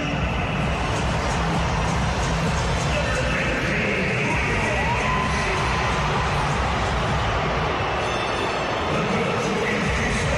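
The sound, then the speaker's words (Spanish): Stadium crowd cheering and applauding as football players' names are announced, a steady, continuous roar of many voices without distinct peaks, filling the whole stretch. “Enciso el más aplaudido.”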